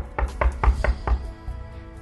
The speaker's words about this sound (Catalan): el llop va arribar a casa l'àvia de la Caputxeta i va picar la porta